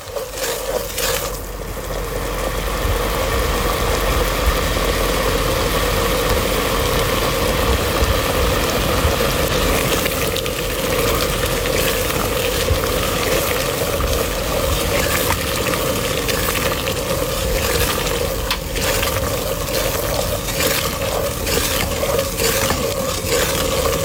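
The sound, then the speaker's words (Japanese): Salt water being boiled down in a pot for salt, a dense, steady hiss and bubbling with a constant low drone underneath, unchanging in level throughout, with no voices. “その塩を煮詰める音を聞いてください。”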